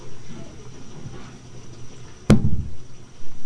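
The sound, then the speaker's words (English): Water poured from a pail hits with a sudden splash, then runs on as a low, rushing, gurgling pour after a quiet lead-in. “You gonna wait and watch Grandpa pour the other pail of water in?”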